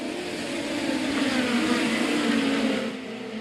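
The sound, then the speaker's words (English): Midget race cars roar off turn four at Belleville during green-flag racing, a loud, steady engine drone that holds for about three seconds before easing slightly at the end. “Here come the midgets off of turn 4.”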